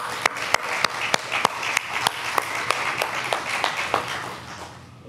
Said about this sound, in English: So give a hand, welcome Eric Fults to the stage with me.